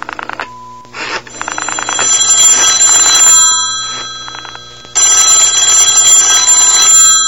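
A telephone rings loudly with an incoming call in a few bright, trilling bell bursts, each a rapid metallic rattle, separated by brief gaps. There is no talk.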